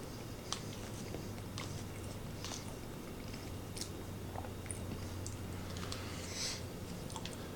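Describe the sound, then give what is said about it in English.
Faint, soft chewing of four cheese mashed potatoes during a taste test, with irregular wet smacks and small clicks and no talking. “But let's test these out. The four cheese mashed potatoes, how do they taste? 3, 2, 1, taste test.”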